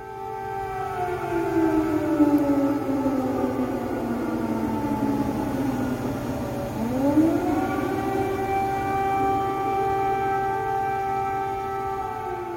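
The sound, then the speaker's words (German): An air raid siren wails across Kyiv, Ukraine: a loud, sustained tone slides slowly downward, dips, then sweeps back up and holds a steady high pitch to the end. “Sie haben eben einen Bombenalarm in der ukrainischen Hauptstadt Kiew gehört.”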